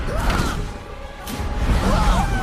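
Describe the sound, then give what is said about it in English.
A swung staff and gusts of wind whoosh through a fight against soldiers among spinning stone columns, with loud, rushing swishes and airy swirls over a heavy low rumble. “As Aang swings his staff and kicks, gusts of wind spin the columns, which block the soldiers as they try to attack Aang.”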